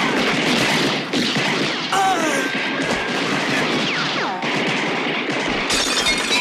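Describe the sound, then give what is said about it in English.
Gunfire in a shootout from a balcony and upstairs windows comes as loud bursts of sharp shots mixed with shattering, breaking crashes, the texture changing abruptly several times across the scene. “The amigos shoot from the balcony. There they are! Move!”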